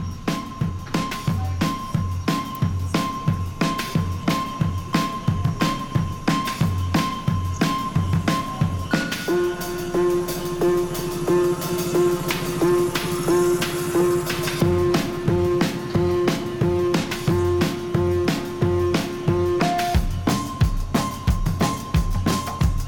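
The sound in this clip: Jolly music played from a record, with a steady driving beat of pulsing percussion and held melodic tones. The arrangement shifts partway through and the beat keeps going at an even loudness, with no voices over it.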